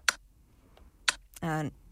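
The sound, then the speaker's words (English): A quiz timer ticks down with a few sharp, isolated clicks spaced about a second apart. A short buzzing harmonic tone follows as time runs out. “And timer just ran out.”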